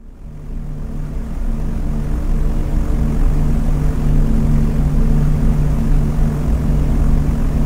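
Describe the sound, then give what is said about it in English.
Steady drone of propeller bomber engines from a formation of more than a hundred aircraft flying at 8,500 feet over England in 1944. The low, even hum swells slightly after the first second, then holds loud and continuous with no voices. “The Bull, along with the other 110 aircraft making up the formation, were headed to bomb a special weapons site located just 2 miles south of the French village town known as Wizerns”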